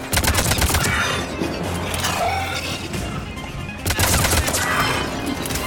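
Rapid gunfire from a video game: dense, loud bursts of shots in quick succession that keep going through the whole stretch with hardly a break.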